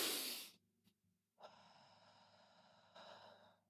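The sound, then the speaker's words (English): A deep breath drawn in through the nose and let out through the mouth: a sharp, airy inhale, a short pause, then a long, soft exhale that swells again near the end. Faint, with no talking. “deep breath in from the nose and out from the mouth”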